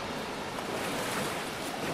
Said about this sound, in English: these waves are getting stronger and stronger. It's like a natural jacuzzi down here.